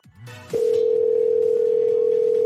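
A steady telephone dial tone for a prank call sounds loud and unbroken at one constant pitch from about half a second onward, after a brief muffled rumble at the start.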